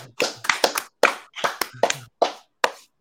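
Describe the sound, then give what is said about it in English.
Hands clapping at the close of a charity auction: a loud series of sharp claps in an uneven rhythm, clustered early and then spreading out, with no speech over them. “Clap.”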